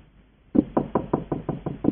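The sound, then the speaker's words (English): Eight evenly spaced knocks on a door in a village, firm and moderately loud, in a steady rhythm with no voices. “He knocked on the first door. No one opened.”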